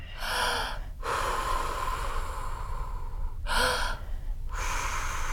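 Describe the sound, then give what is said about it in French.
Breath blown out with force to make music, heard as two long airy bursts over a steady breathy hiss, with no clear musical tone. “heureusement qu'il reste mon souffle pour faire la musique, hein.”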